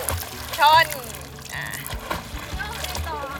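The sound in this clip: Water splashes and sloshes as a child learning to swim in a pool kicks along while holding a foam float, the watery splatter mixed with children's voices and an adult speaking over the top.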